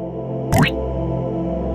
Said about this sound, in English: in the thinnest pool of water beneath you, and you can hear the dripping